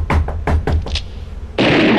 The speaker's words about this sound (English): Wow, she's knocking really hard today.